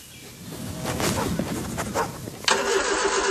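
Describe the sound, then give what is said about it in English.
A ute engine cranks and struggles to start, the starter turning over in a steady rhythmic churn that never settles into a clean idle. “your ute's been making that noise since Easter”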